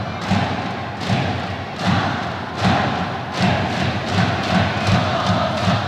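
A stadium crowd of North Korean fans in Japan cheering: a dense, loud roar swells in steady rhythmic surges, with thumping beats that suggest chanting and drumming throughout.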